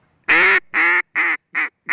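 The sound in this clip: A hunter's bird call gives five loud, nasal, honking quacks in a steady rhythm. The first note is the longest and the rest are shorter and clipped.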